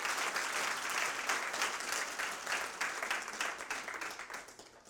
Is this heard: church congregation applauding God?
yes